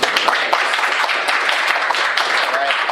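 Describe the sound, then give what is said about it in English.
An audience at a lecture applauds to welcome a speaker, a dense and loud wash of clapping that stays steady throughout. “So without further ado, please welcome Professor Nielsen.”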